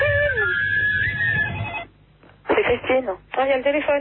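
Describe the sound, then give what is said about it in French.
A telephone rings over a thin, band-limited CB radio line. A steady electronic tone comes first, then voices talk in short bursts. “Oh, il y a le téléphone.”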